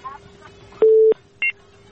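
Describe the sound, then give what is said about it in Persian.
Phone tones sound as a call is cut off: one steady mid-pitched beep, then a shorter, higher beep, over a faint background murmur. “تماستان وصل شده فکر میکنم که قطع شد میریم طرف تماس بعدی”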